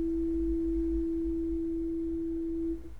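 A pure, steady tone from a monochord string divided in a 3:2 ratio, one interval of the Pythagorean scale. It holds at one even pitch and loudness for almost three seconds, then quickly dies away.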